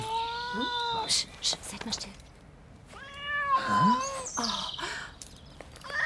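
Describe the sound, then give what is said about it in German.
A Chartreux cat meows from up in an old oak tree where horses graze, giving a few drawn-out, wavering meows. People talk quietly around and between the calls. “Das ist eine Katze.”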